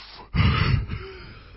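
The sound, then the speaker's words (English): A voice imitates a sharp, breathy gasp, the shock of a first breath after diving into a cold swimming pool in winter. It is a single loud rush of air lasting about half a second, then it fades. “the first dive in and the first breath is like...”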